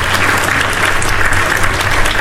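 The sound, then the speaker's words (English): Loud, steady applause from a crowd, a dense continuous patter of clapping holding at an even level for just over two seconds with no voices standing out. “Get these applause.”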